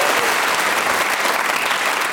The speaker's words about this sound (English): Can I just say, 30 seconds for an inaugural performance. Bring I think merits a round of applause.